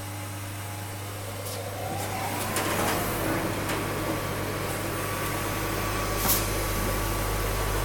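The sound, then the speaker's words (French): Ventilation in a fablab switches on beside a laser cutter used on polypropylene sheets. After a couple of seconds the airflow rises into a steady low hum and a broad, even rush, with a few faint clicks along the way. “Bienvenue dans le monde du futur. Voilà. Et j'allume la ventilation.”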